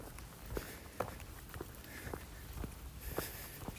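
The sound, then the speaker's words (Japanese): Footsteps walk along a paved road on a rural hiking route near strawberry greenhouses, heading toward the mountains. The steps fall in a steady, regular rhythm and stay faint throughout. “今舗装路をずっと歩いてて左の奥にこれから登る”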